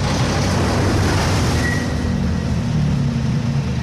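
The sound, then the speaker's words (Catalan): Grapes tipped from a raised trailer tipper into a winery hopper make a loud, steady rushing roar that holds continuously for the whole stretch without breaks or pauses. “Mentre, doncs, puja el bolquet d'aquest remolc. Molt bé. Acabarem amb el so del raïm que hi ha a dintre de la tolva.”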